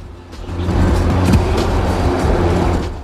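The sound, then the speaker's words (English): Car driving along a quiet road near the sea: a steady, loud, low rumble of engine and tyres that builds slightly in the first second and then holds evenly to the end. “she drives the car along a quiet road near the sea”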